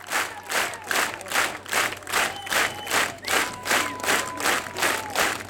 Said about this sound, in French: Le public du festival de Château-Vallon en redemande, comme vous pouvez l'entendre.